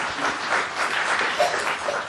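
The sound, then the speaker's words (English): Audience applause for a local filmmaker at an evening documentary presentation, a dense patter of many hands clapping together that swells slightly and stays fairly even from start to finish. “Now you can applaud.”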